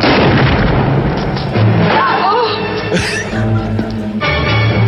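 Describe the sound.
A gunshot-like boom from a movie's final scene, where one man holds another at gunpoint. A sharp, loud burst lands about midway through a dense, noisy soundtrack.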